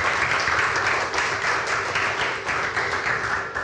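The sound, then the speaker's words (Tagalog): A church audience clapping together, a loud, sustained wash of many hands with a faintly pulsing rhythm that carries evenly from start to finish. “Can we give God the best clap for that?”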